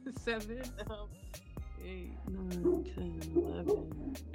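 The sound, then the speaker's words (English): A dog barks in short bursts mixed with high yips and whimpering whines, heard under and between a man's steady talking. “Sorry about my dog.”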